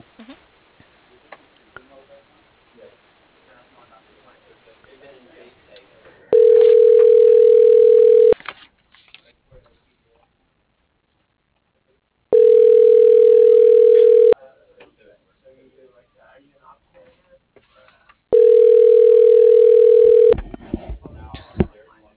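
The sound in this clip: Ringback tone of a telephone call put on hold and transferred: three steady, loud tone bursts of about two seconds each, separated by long silences, with faint low noise before the first.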